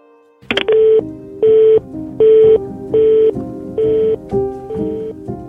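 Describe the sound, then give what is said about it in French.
A telephone sounds, with a sharp click followed by six short, evenly spaced electronic tone beeps, loud and steady with no voices. “Soudain, le téléphone sonne.”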